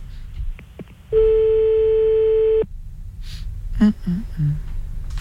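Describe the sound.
A telephone ringing tone sounds while a call to a listener is placed: one long, steady, loud electronic beep with a clear pitch. It sits over a low background murmur, and a few faint, brief vocal sounds follow it.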